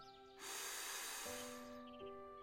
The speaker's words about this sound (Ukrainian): А тепер зробіть ще один глибокий вдих